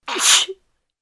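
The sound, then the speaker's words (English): A single human sneeze, a loud, hissy burst of breath that swells quickly and ends in a short voiced catch, then silence. “We say, bless you, when someone sneezes.”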